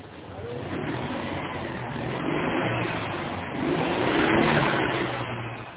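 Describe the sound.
A car engine starting noisily and revving, a dense continuous roar that builds in loudness in a couple of surges toward the end.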